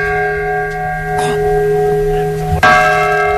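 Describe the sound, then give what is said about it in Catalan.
The restored Mònica bell of La Seu Vella in Lleida chimes the quarters. A long humming resonance rings on before a fresh strike lands near the end and renews the bright, sustained tone. “Perquè gairebé 9 anys després, els quarts des de la Seu Vella tornen a sonar així.”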